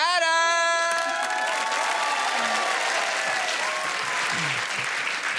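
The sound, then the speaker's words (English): A live show audience breaks into loud, sustained clapping with a few cheers as a guest is called up onstage, the applause staying full and even to the end. “Put your hands together for”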